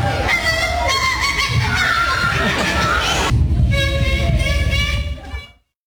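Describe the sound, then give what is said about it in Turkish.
A 12-year-old boy imitates bird calls at a school show with loud, honking, warbling calls that run continuously over a dense background and then cut off abruptly near the end. “125'ten fazla kuş sesini taklit edebilmesiyle ünlendi”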